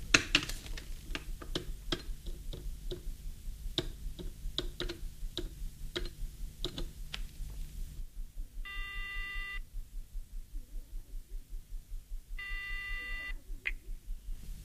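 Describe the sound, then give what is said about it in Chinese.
A telephone is dialed to place a call. A long run of quick, even ticks comes first, then two separate bursts of steady electronic tone with a gap between them. “安排停当后，夜莺马上给许文挂电话。”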